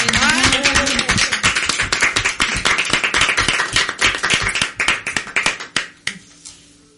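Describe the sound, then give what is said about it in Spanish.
Dense applause from many hands fills a radio program, loud and continuous, with a voice rising briefly over the start. The clapping thins into scattered claps near the end and then fades out. “Un aplauso”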